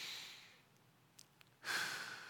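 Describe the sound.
A preacher takes deep breaths during a sermon: a soft, breathy exhale fades out, a couple of tiny clicks follow in the quiet, then a sudden loud rush of breath.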